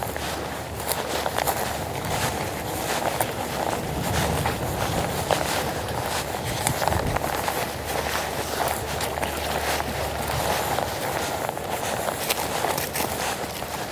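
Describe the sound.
Footsteps walk steadily down an outdoor path, with many even, crunching steps continuing throughout at a moderate level.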